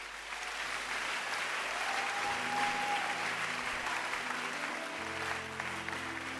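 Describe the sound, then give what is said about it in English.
Audience clapping at a church service after people are saved: dense, steady applause fills the whole clip at an even level, with soft instrumental tones beneath. “Keep clapping for them.”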